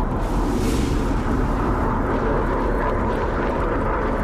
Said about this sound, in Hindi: अपने ही बम्बर की आवाज सुनकर ट्रंप ने आंखें बीच ली,